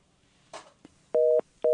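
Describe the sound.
Telephone line tones as an incoming call connects: a short rustle and a click, then two steady, flat beeps. The second beep is cut off at the end.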